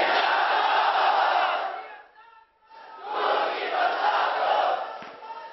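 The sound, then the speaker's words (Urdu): A crowd at a religious birthday celebration shouting a slogan in unison: two loud, sustained chant bursts separated by a short lull, the second rising back to full strength before tailing off slightly at the end. “اور لگاؤ نعرہ انشاءاللہ.”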